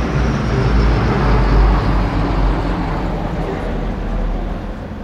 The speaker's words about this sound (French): C160 Transal, nouvelle génération, masse à vide 38 tonnes, vitesse maximale 515 km/h.